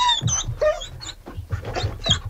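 Dogs bark and yelp in short, overlapping bursts at a dinner held for forty dogs in Paris. Many sharp, fairly loud barks come at an uneven rhythm, with no talk between them.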